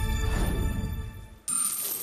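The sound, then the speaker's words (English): Counters tumble over the edge of a Tipping Point coin-pusher machine in a low, rumbling clatter that fades. An abrupt, bright, sustained high tone then cuts in. “That's a massive 10 counters across the tipping point.”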